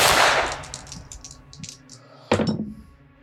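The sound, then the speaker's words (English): A sharp, loud gunshot fired from brush some way up a roadside cracks out with a quick ringing decay, after a burst of noisy rumble fades away; no one talks. “You see another glint, and another shot is fired at you.”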